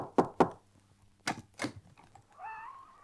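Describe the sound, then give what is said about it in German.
Knocking at a hospital room where an injured patient lies: sharp, dry raps in two quick pairs separated by a short pause, loud and clear, with no talk over them. “Klopf doch mal.”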